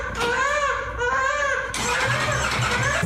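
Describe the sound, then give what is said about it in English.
A motorcycle engine starts with a rising, wavering mechanical whine, then catches and settles into a rougher, fuller running rumble. “start up the hog there. Oh, he's running the motorcycle?”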